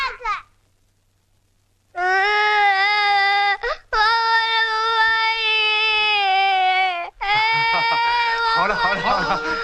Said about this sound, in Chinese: 来来，别哭别哭啊